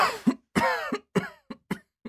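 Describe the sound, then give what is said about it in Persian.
Several harsh coughs come in an uneven sequence, from someone who is ill with fever, ear pain and a sore throat. The early bursts are longer and throaty, and the later ones are short, sharp and evenly spaced. “سرفه هم که میکنی؟”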